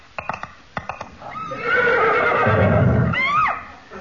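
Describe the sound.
A horse neighs loudly as a comic signal for a riding accident, following a few sharp clip-clop hoof knocks, then a long quavering whinny that ends in a rising squeal.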